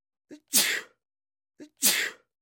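Two sneezes, each opening with a short, breathy intake and then bursting into a loud, hissing expulsion. They are evenly spaced about a second and a half apart, with silence between them.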